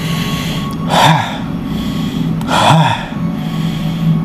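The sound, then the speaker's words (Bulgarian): Bhastrika breathing exercise: two loud, forceful nasal breath bursts, each a strong inhale and sharp exhale, spaced about one and a half seconds apart over a steady faint background hum. “бастрика дъх, вдишване, издишване, вдишване, издишване. Два пъти по-дълго вдишване, рязко издишване, точно така.”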